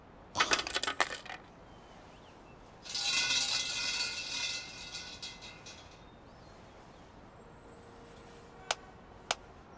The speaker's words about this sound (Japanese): まずはお賽銭を入れて鈴を鳴らす。